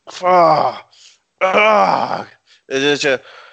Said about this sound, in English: that's not a happy Vince McMahon groan. That's a frustration of, like, what the fuck am I sitting through?